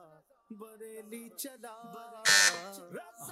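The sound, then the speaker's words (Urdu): A quiz show answer bell rung by a team: one loud, bright electronic burst about two-thirds of the way through, set among sustained tonal sounds. “Kids نے بیل بجائی.”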